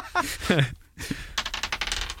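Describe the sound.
A die is thrown onto a table and clatters in a quick burst of many small, sharp clicks and rattles as it bounces and rolls.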